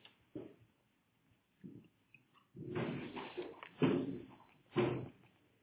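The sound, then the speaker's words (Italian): A door is moved with a few thuds and knocks separated by quiet gaps, then a denser stretch of scraping and bumping, with the last knocks landing louder. “se tutto possiamo fare un blitz a spostare la porta perché entra tanta luce”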